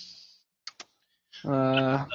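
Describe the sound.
Two quick, sharp computer mouse clicks, made while someone struggles to take a screenshot, fall in a brief gap between stretches of talk.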